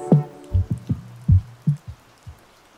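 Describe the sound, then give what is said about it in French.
Rain falling as several separate heavy drops, each a dull, low-pitched thud. The drops land at an uneven, sparse rhythm over a faint background hiss, and no voices are heard. “Enfilez votre caouet, relevez votre capuche, nous partons sous la pluie.”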